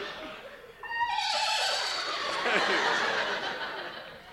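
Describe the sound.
A man's voice imitates a horse's whinny at a live comedy show, with a stepped, falling pitch, then gives way to loud, sustained laughter that carries to the end.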